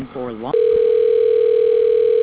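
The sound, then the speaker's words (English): A steady, unbroken telephone tone hums at a single pitch while a call is transferred to voicemail, following a brief moment of speech at the start. “do you want me to go ahead and transfer to a voicemail?”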